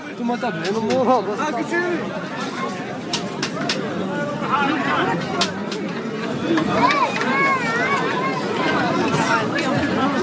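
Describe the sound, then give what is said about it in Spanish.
Dense crowd chatter fills a busy town square lined with food stalls under awnings and tents, a steady, lively babble of many overlapping voices with no pauses throughout. “lo que queríamos recoger es efectivamente el sonido de esta plaza que bulle de gente y de establecimientos donde comer, con sus toldos, sus carpas”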